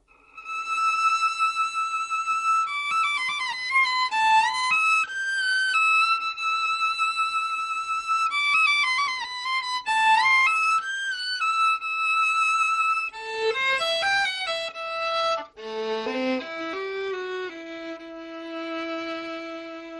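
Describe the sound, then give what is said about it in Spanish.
Solo melody standing for a storytelling princess within an orchestral narrative: a high, lyrical line of held notes and quick ornamented turns that drifts gradually lower toward the end, played alone without voices. “de pronto escuchamos una melodía que nos hace recordar que esto lo está contando una princesa. Esta melodía suena así.”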